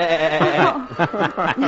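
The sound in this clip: A voice imitates a sheep's bleat to herd sheep, giving a few loud, quavering, nasal baa-like calls in quick succession.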